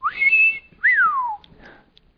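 A person whistles two loud notes: a quick upward slide that holds high, then a longer downward glide. A few faint, short chirps trail off after them.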